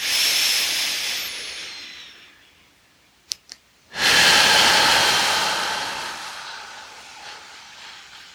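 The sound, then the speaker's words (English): Forceful exhaling breath during a guided breathing exercise: a loud breathy hiss that fades away, a couple of soft clicks, then a second strong exhale that starts abruptly and slowly tapers off. “Together, exhaling. Push it all out. Squeeze it out.”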